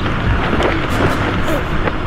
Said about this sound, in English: There's too much wind. Get medics down there fast. As the wind dragged the men across the field, sticks tore into their bodies.